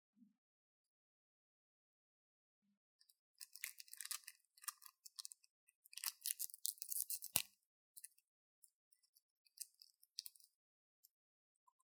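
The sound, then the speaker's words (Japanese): Hard candy being crunched and chewed: many quiet, crisp cracks and crackles in irregular bursts after a near-silent start, with one sharper snap partway through and sparse clicks toward the end, no talk. “飴玉食べるね。”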